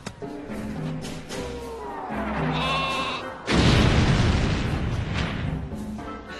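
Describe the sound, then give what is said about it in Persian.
A weapon gives out a sheep-like bleat, with wavering, nasal tones repeating for a few seconds. A loud, rumbling boom follows and fades slowly. “غلط نکنم یه اسلحه ساختن صدا ببایی میده.”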